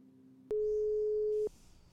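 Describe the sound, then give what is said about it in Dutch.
Telephone ringing tone as an outgoing call is placed, one clear, steady electronic tone lasting about a second, framed by quiet line hiss before and after. “Dus het is tijd om even te bellen met Mariska Jacht.”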